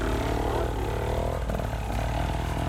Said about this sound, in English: He's got his bike started because he bump started it.